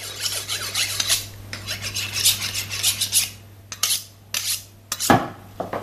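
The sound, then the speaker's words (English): Rasping, scraping strokes of a kitchen knife being sharpened, coming in many uneven, fairly loud passes over a steady low hum, with no voices. “That's the most important thing, to take care of my knife, to sharp it, to keep it always ready.”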